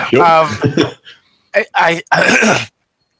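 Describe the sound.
Throat clearing: a few rough, harsh bursts follow a moment of speech, loud and close, with short gaps between them.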